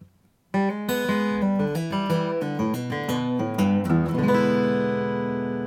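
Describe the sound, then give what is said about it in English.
A guitar lick played with hybrid picking, pick and fingers together: a quick run of many clear plucked notes that move between low and high strings, ending on a chord that rings out and fades. “hybrid pick this particular guitar lick. Let me show you how that sounds.”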